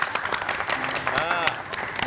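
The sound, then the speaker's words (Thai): Children applauding after answering a question in class, a quick, busy patter of many small hands clapping, with an adult voice speaking over part of it. “เด็กๆเก่งมากเลยปรบมือให้หน่อย”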